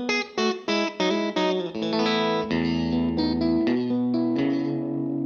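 Electric guitar, a Telecaster with all three pickups switched on, plays a quick run of short strummed chords, then moves into sustained, ringing chords that overlap and change pitch, bright and full with no voices.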